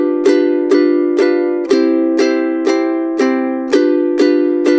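Ukulele strumming that alternates between G7 and C chords: ten evenly spaced strums, each ringing bright and full before the next, at a steady moderate pace.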